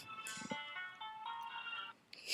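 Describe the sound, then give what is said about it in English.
A mobile phone ringtone plays quietly as a sustained electronic melody of bright, stepped tones, with brief gaps and a rise in level near the end. “My phone is ringing.”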